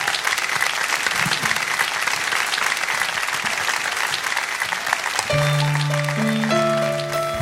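Audience applause greets a singer taking the stage at a live show: dense, steady clapping for about five seconds, then music with sustained held tones comes in and continues to the end.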